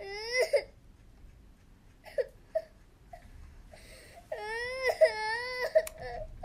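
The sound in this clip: A girl cries in several bursts of high, wavering sobs and wails, with short whimpers between them and brief pauses breaking up the crying; the pitch bends up and down through each sob.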